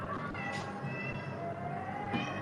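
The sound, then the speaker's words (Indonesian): A cat meows faintly over a low, steady background. “Apa sih kucing? Udah dikasih makan belum sih mami?”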